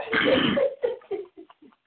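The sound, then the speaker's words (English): A person clears their throat with one long, raspy burst, then a few shorter rough rasps that grow quieter and trail off. “I'm trying to clear my throat”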